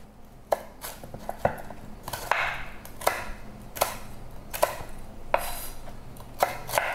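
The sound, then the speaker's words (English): A knife chops biscuits into rough chunks for a chocolate salami. The strikes are sharp and crisp, coming in a steady series of many knocks at roughly even spacing, with no talk over them. “Just chop it up into rough chunks and just toss it in. Okay, let me give them a rough chop.”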